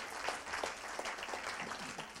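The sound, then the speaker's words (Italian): A short stretch of audience applause at a church gathering, dense and fairly faint, a continuous wash of clapping with no voices over it. “dobbiamo fargli un applauso”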